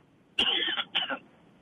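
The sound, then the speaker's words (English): A small cough from a person bothered by allergies, two quick raspy bursts close together, with quiet before and after. “A little cough? I got a little allergies been bothering me lately.”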